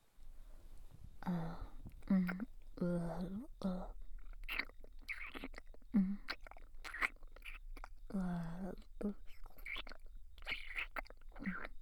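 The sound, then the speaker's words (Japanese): Chewing and crunching while eating food: many soft, moist bites and crunches in an uneven run, with quiet whispery voice sounds mixed among them. “こうして食べると少し味も変わって感じますね。”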